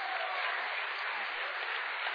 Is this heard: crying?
no